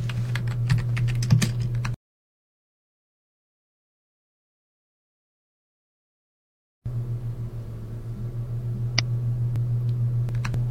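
Typing equations on a computer keyboard: quick bursts of clicking keystrokes over a low steady hum, broken by a few seconds of total silence before the tapping resumes.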